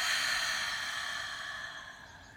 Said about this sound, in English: Let's close our eyes. Let's take a nice deep breath in and release.